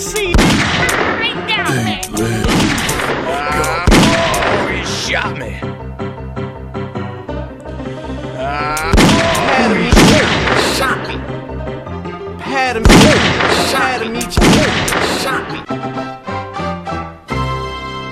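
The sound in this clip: Gunshots in a video game's outlaw hideout level, a few sharp cracks at uneven intervals, layered over a continuous musical score with dense tonal texture.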